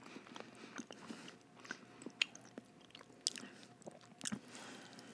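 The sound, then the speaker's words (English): Crunchy chewing of a cracker, with irregular crisp bites and crackling crunches throughout and no talking. “He's just staring at me in the cracker. He's just chewing it. He's looking at every angle of the cracker.”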